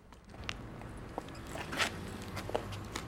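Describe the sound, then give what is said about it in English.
Footsteps of a chief superintendent walking along a line of police officers during an inspection: a few soft, irregularly spaced steps at a low level. “Coulson walks along the line of officers, inspecting each one in turn.”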